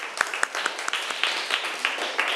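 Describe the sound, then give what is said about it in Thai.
Students clap for themselves in a class after a correct answer: a scattered burst of sharp, irregular handclaps over a steady hiss. “ถูกต้องค่ะนักเรียนเก่งมากปรบมือให้ตัวเองหน่อย”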